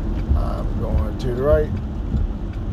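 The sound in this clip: A car driving slowly, its low, steady engine rumble running throughout while people talk over it.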